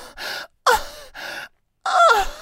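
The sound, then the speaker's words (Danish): A woman lying down in a film, craving heroin, moans in four breathy vocal bursts separated by short silences; the second and fourth are louder, with a wavering, sliding pitch. “Og så ligger hun og stønner lidt.”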